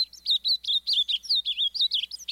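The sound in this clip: Ultramarine grosbeak song: a rapid run of many cheerful, bubbly, high-pitched warbled notes, clear and moderately loud against a quiet background.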